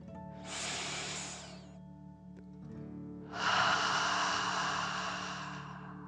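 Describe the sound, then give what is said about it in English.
A slow, deep breath in and out during a calming exercise: two long, soft airy rushes, the second louder and longer and fading gradually, over a faint low hum. “Fill up your chest and belly. Deep breath. In and out.”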